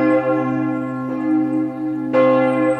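A church bell tolls a death knell in slow, heavy strokes, each one ringing on with a long, humming resonance before the next strike sounds.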